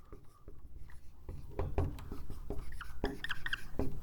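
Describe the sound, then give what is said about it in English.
Handwriting strokes scratch and tap in a quick series of short marks with brief pauses between, faint at first and growing somewhat firmer as the writing goes on. “I'm going to write them today. I'm going to call this one Heavenly Family.”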